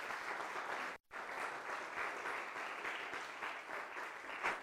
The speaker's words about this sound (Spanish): ¿Por qué no le damos fuerte aplauso al Señor?